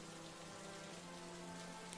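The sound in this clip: Steady rain falls with a soft, continuous hiss that stays even and quiet throughout, with no voices.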